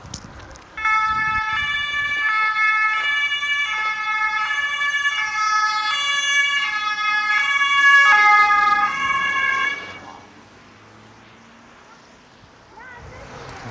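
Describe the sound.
An ambulance siren passes on the road, its two-tone wail alternating loudly for about nine seconds before cutting off. Fainter road noise continues afterwards.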